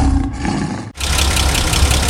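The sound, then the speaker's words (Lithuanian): The engine of a 20-year-old car runs with a rough, steady rumble; after a brief break partway through, the noise returns louder, rougher and brighter. “Tai 20 metų senumo automobilio garsas.”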